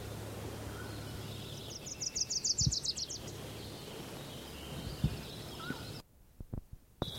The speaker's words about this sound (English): I think there was a Wilson's warbler in there.